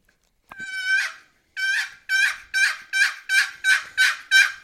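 Eight yelps on a turkey call, with each note breaking from a high yee to a lower tone as practice for finding the breaking point. A longer first yelp comes before a quick, evenly spaced run of seven.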